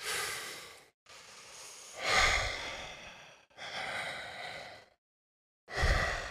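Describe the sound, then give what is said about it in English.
Deep, slow breaths of a breathwork exercise, each drawn in fully and then let out. Several long, soft airy inhales and exhales follow one another alone, separated by brief pauses. “just taking that deep inhale, even deeper than you normally allow yourself to breathe, and let it go. And taking that breath all the way in and letting it go.”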